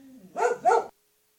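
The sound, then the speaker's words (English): A dog barks twice in quick succession, two sharp, loud barks after a faint low whine, then silence. “now that we got the dog to shut the fuck up”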